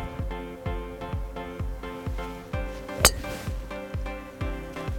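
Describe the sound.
A golf driver strikes the ball once during a lesson on gaining driving distance, a single sharp crack that stands out over a steady rhythmic beat of background music.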